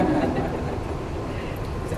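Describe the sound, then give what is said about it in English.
Loud, steady rumble of a passing train, a dense low roar with a faint clattering texture throughout. “That's the 12:32 train to Brighton or something.”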